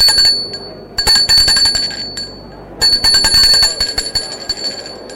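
A small metallic bell rings to close a formal session, with rapid, bright, chiming strokes in two clustered bursts separated by a short pause. It is loud and clear, and no voices are heard.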